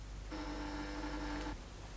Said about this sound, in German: Das Telefon. Ich muss hingehen.